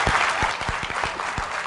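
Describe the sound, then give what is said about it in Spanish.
Audience applause at a Venezuelan presidential address, a thick wash of steady clapping with a few louder individual claps popping out through the short stretch. “quiero que le demos un aplauso pues a esos venezolanos que votaron por el sí, no importa.”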